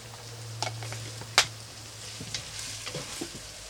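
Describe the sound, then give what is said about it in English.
Diced peppers sizzle in a frying pan, a faint, steady crackle broken by a few soft stirring scrapes and small clicks. “I'm going to throw a little bit of peppers I just diced up in here.”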